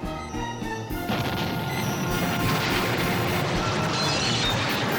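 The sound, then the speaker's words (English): Explosions from direct hits on Imperial lead ships in a space battle: a dense, continuous roar of crashing booms, opening with a few sharper impacts and then settling into sustained heavy rumbling. “All ships, attack! Direct hits on the lead ships.”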